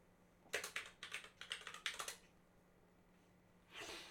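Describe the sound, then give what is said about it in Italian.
Computer keyboard typing as a search is entered: quick, quiet clusters of clicking keystrokes in an irregular rhythm, then a brief pause and a softer, broader sound at the end. “Però non si chiama Starpets e basta. Starpets Ubisoft proviamo a scrivere.”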